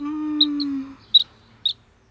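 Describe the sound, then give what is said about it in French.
Baby birds in a nest give a few thin, high, very brief chirps, scattered irregularly. A low, steady wailing tone runs beneath the first half. “Les bébés oiseaux ouvrent grand leur bec.”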